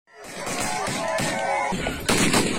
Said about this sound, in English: That's the sound of gunmen who massacred 60 people in an armed ambush.